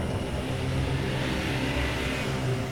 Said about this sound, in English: 2 vehicles pulled up through the mud.